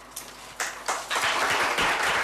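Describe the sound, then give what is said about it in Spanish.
Party colleagues and voters applaud at a town council session after a motion of censure brings in a new mayor; scattered claps swell into steady, dense applause. “Un aplauso por parte de compañeros de partido, de votantes de la agrupación bejarana.”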